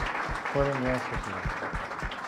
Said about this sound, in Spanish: pues les damos unos aplausos a los seminaristas que van a empezar la misión